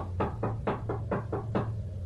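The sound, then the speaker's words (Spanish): Knocking on an apartment door comes as a quick, fairly even series of about seven hollow raps over a low, steady hum. “Había dejado la puerta abierta a sus espaldas y alguien parecía tocar.”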